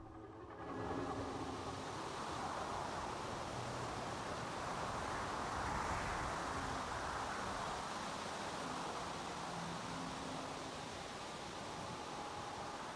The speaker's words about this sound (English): Hypnotic wavelets dance on the gently coursing waters.